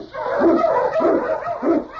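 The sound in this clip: Husky sled dogs in the Yukon giving three loud, tonal, yelping barks in a loose rhythm, each one rising and falling in pitch.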